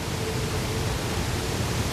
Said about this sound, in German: Lieber denken wir mal an so einen leichten Wind am Meer.